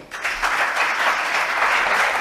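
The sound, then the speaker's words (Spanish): Deputies in parliament applaud during an investiture vote as a name is read out. The dense, sustained clapping from many hands stays steady and fairly loud throughout. “sus diputados aplaudieron en el momento en el que se leyó el nombre de Carles Puigdemont”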